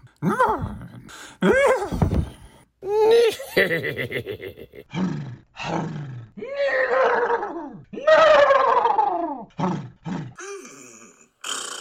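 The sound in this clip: A man's voice imitates a horse, producing a long series of neighing, whinny-like calls that rise and fall, mixed with rough roaring and groaning tones, each burst separated by short gaps.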